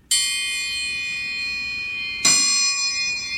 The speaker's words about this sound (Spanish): Y así suena el triángulo.